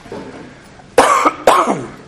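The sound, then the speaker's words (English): A person recovering from an illness gives two sharp, loud coughs in quick succession, each with a short rasping tail, after a faint breathy lead-in. “I have greatly recovered this last week, but I'm still coughing somewhat.”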